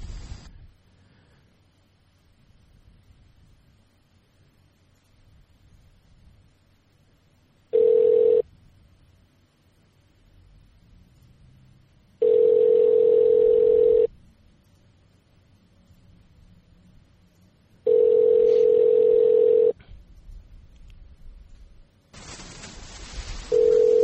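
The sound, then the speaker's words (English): Outgoing telephone call ringing: three steady single-pitch ringback bursts, the first short and the next two longer, separated by long quiet gaps over faint hiss. A broad burst of noise follows at the end. “So let's give him a call. Let's see what he's doing.”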